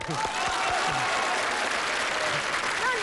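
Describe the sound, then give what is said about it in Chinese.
An audience clapping to welcome an older man up to give his acceptance speech after winning: dense, steady applause that stays even in loudness from start to finish, with voices faintly audible underneath. “好朋友们，接下来我提议让我们今天所有到场的好朋友伸出您的双可爱的双手，欢迎大叔做获选感言。”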